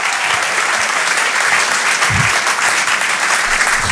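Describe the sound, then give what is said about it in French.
Audience applause at a comedy club as the crowd welcomes the host to the stage, a dense, steady roar of many hands clapping that holds at a loud, even level throughout. “Mesdames et messieurs, faites du bruit pour Guillaume, s'il vous plaît, Guillaume.”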